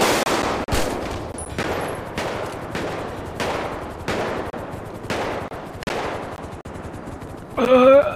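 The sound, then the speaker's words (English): Repeated gunfire in a video game: a rapid series of sharp, loud cracks under a second apart, each with a short decaying tail, ending with a brief voice. “Shooting at me! Yeah, because you were firing at him.”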